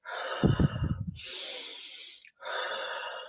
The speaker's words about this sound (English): and then that contraction's finished and you go, and then you want to take big in breaths.